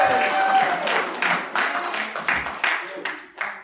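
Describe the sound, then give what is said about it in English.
A church audience claps to welcome a preacher up to speak, the applause coming in uneven bursts that gradually thin out and fade. “So if you could please put your hands together as we welcome up Steph.”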